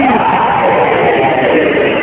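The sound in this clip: A large crowd roars back in unison to the Haidari slogan at a religious gathering honouring Ali, a dense, sustained wall of shouting voices that stays loud and unbroken for the whole moment.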